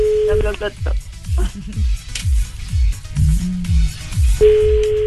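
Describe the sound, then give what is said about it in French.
A phone's ringback tone sounds while a call is placed. A steady beep is heard at the start and again near the end, with music and talk running underneath. “Attention, on appelle Louis.”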